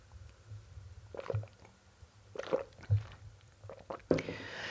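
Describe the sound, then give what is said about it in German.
A quick drink: a few soft gulps and swallows with wet mouth clicks, quiet and irregular, with near silence between them. “Mal kurz was trinken.”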